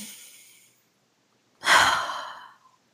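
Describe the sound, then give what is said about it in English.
Slow, deep breathing with no talk: the airy tail of an exhale fades out, a pause follows, then one long, fairly loud breath of about a second rises and slowly trails off. “So if you're exhausted, breathe with me.”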